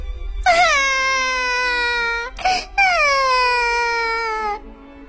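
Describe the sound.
A voice acts out a bear cub crying in a children's story: two long, loud wailing sobs whose pitch slides downward, separated by a brief sharp gasp, with no spoken words.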